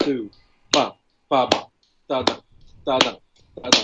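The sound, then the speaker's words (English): A voice imitates a surdo drum's bass part with six low, booming vocal hits in a steady, even rhythm, most of them marked by sharp snap-like clicks, with short silences between. “For example, as a bass player would probably like check out the surdo part, which kind of sounds like this.”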